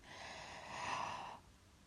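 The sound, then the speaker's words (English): A slow, deep breath drawn in, a soft airy rush that swells and lasts over a second before stopping abruptly, leaving quiet behind. “I want you to try and regulate your breathing. Take a nice deep breath in.”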